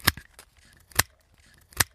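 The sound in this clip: Pruning shears cutting branches on a pear tree during winter pruning: three sharp, crisp snaps spaced about a second apart, with a few softer clicks of the blades between them. No voices are heard.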